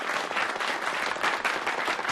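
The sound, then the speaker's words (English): Audience applause at a Soviet Friendship Society tribute, a dense, even wash of clapping that holds steady throughout with no voices over it. “On behalf of the Soviet Friendship Society, we applaud you.”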